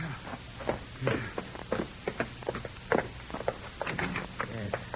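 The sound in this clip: Footsteps of people walking land in a steady, even rhythm, many distinct steps at a moderate pace over a soft constant background.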